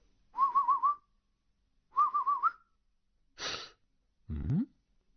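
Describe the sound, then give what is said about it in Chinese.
Soft whistles come from outside a wall: two short warbling phrases of rapid trills, separated by a pause. Two breathy bursts of noise follow, and no one speaks. “忽听得围墙外轻轻传来几下口哨声，停了一停，又响了几下。”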